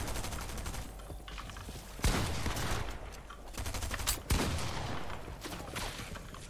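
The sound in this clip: Pump shotgun fire in a video game: two sharp, loud blasts stand out from a continuous clatter of gunfire and action noise.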